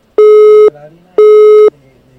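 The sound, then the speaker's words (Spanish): A telephone busy tone sounds after a dropped call: loud, even beeps separated by short silences, two full beeps and the start of a third. “Se cayó la llamada de Abastos Sicarelli.”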